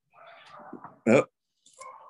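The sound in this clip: A dog vocalizes while dogs may be biting each other: soft low grumbling sounds, then one short, loud bark-like yelp, followed by a brief fainter cry near the end.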